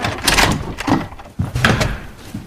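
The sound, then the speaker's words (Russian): A house door is opened with a busy, fairly loud series of knocks, scrapes and rattles spread across a couple of seconds. “Подходит к двери, еще раз глянув на гроб, открывает.”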